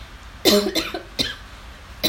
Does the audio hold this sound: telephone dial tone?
no